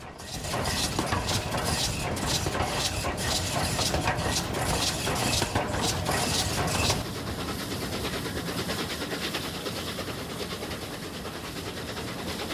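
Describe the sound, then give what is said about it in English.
A steam locomotive runs with its carriages behind, its running gear heard up close. Rhythmic mechanical beats last about seven seconds, then give way to a steadier, slightly quieter rolling rumble. “The locomotive's running gear up close, with the train's carriages stretching out behind and steam drifting across passing trees.”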